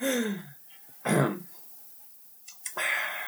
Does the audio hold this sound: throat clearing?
yes